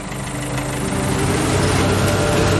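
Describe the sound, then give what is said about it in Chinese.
A lawn mower engine runs while cutting grass in the sunshine. It makes a continuous, rough, buzzing drone that stays steady and fairly loud throughout, with no pauses. “草地上响起了发动机的声音。阳光明媚，微风和煦，这片草地又开始除草了。”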